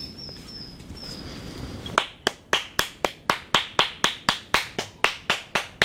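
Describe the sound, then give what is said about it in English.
Hands clapping to summon robins on an island, a long series of sharp, crisp claps in a quick, steady rhythm that starts after about two seconds of quiet outdoor ambience. “We'll just walk along a little bit and we'll try and clap up some robins.”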